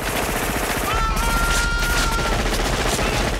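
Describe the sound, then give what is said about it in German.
Film gunfire from machine guns shooting into a jungle, a dense, unbroken barrage of rapid shots that stays loud and relentless throughout. “die schießen und schießen und schießen mit allem, was sie haben”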